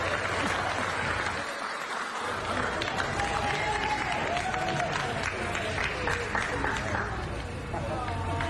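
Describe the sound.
A crowd applauds a young boy who skipped school, a continuous wash of clapping mixed with cheering and chatter.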